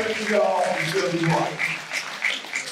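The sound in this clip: Audience applause at a gathering in San Antonio: a steady, moderately loud wash of clapping that runs continuously for nearly three seconds, mixed with overlapping voices from the crowd talking over it.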